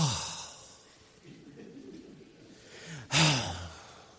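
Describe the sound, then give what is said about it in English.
A man imitates the loud, exaggerated sigh of a churchgoer sitting in the front row during a sermon. Soft breathing runs along quietly, then a strong breathy exhale bursts out near the end. “he would sigh out loud so that everybody could hear. So I'd make a point and he'd go,”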